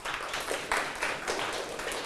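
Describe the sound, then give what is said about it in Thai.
Classmates clapping for a student after a correct answer in a math class, a faint, brief burst of scattered hand claps lasting about two seconds. “ปรบมือเพื่อนหน่อยครับ”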